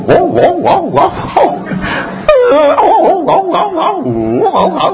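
A dog growls and howls over a bone, making loud, wavering whines and yowls that swoop up and down in pitch in many closely repeated bursts.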